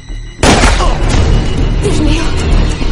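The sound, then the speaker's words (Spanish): A single loud gunshot in a 2013 action thriller film: a sharp boom cutting in over quieter music and leaving a dense, rumbling tail that lasts to the end. “Ponytail dispara a Jerry, que cae al suelo, y Sara se esconde detrás del coche.”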